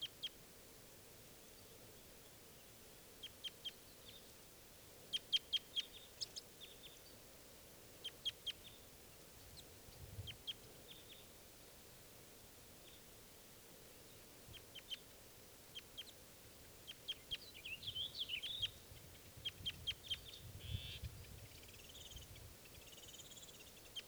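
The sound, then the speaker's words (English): Faint, short, high flight calls from a bird in a flock: many brief chirps scattered over a steady hiss, some in quick clusters. “one of the individuals is giving flight calls.”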